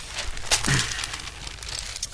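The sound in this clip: Pages of a La Stampa newspaper are turned with soft, papery rustles and a few brief crinkling bursts. The sound is faint and no voice is heard over it.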